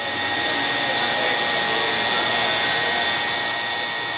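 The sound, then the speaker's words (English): Sewing machines running on a garment factory floor give a steady, loud mechanical whir with a high, even whine. It holds without pause or change throughout, with no voices. “On the factory floor, workers sew and stitch, churning out garments for the U.S.”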